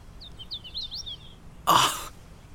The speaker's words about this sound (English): Do you hear that? Is that a prothonotary warbler? No, that's a hooded warbler. That's a hooded warbler.